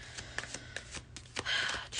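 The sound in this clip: A deck of cards is shuffled with quick papery flicks and slaps, ending in a brisker, denser burst of riffling; no one speaks.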